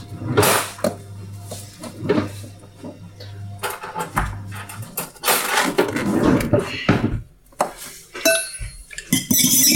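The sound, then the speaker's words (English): Fork whisking eggs in a mixing bowl: many rapid clinks and scrapes of metal against the bowl in an uneven, busy rhythm, fairly loud and continuous throughout. “Whisk the eggs with a fork in a mixing bowl.”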